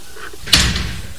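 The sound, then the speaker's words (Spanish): A door is opened during a bank robbery with hostages, giving one sharp impact followed by a low, fading rumble. “Fernando abre una puerta.”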